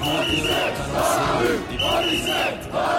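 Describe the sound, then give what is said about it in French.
A dense crowd thanking police officers and gendarmes between Nation and République chants loudly in a rhythmic, repeated pattern of sung phrases with brief dips between them, many voices shouting together. “Une foule compacte qui remercie policiers et gendarmes.”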